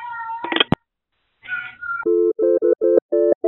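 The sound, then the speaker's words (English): A cat meows a couple of times with bright, wavering cries, followed by a run of short, steady electronic beeps in quick succession. “The cat wants to talk to you. Here, kitty, kitty, kitty.”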